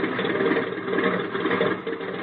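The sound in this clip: A small airplane's engine drones while taxiing, a steady, buzzing hum with a slight rhythmic flutter that holds at an even level throughout, with no voices.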